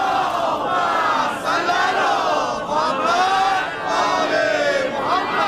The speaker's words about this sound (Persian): شادی روح محمد و جمیع شهدا، بلند صلوات.